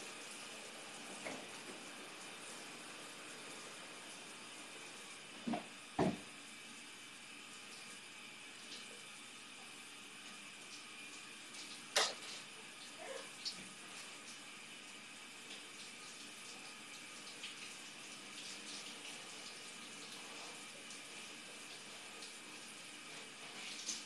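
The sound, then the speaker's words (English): Something being rinsed under a running tap: a faint, steady hiss of water throughout, broken by a few soft clicks and knocks. “Okay, I'm gonna rinse this really quick and then I'll take a look.”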